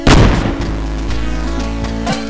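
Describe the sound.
A single loud, booming gunshot opens, trailing into a long, steady ringing tail with no further shots.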